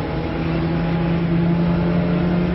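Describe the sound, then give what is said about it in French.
Engine drone heard from inside a car during a speed run, a steady, loud hum with a low tonal note held throughout and no talking. “je me trouve dans la voiture à partir de laquelle vous recevez ces images. Je vais me contenter, en ce qui me concerne, de vous donner les vitesses affichées au compteur.”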